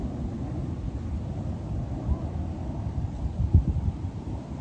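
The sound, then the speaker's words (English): Wind blows outdoors through leaves, heard as a steady low rumbling gust that swells slightly now and then, with no voices. “I just want to share these leaves here that I'm watching blow in the wind and just notice them.”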